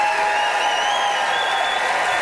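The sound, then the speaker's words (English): Audience applause during a debate vote by applause for a pro-boycott debater: a steady, sustained patter of many hands with some cheering, holding an even level from start to finish. “It is time to vote, everybody. By applause, who was buoyed by Martha's pro-boycott brouhaha, Martha Chavez?”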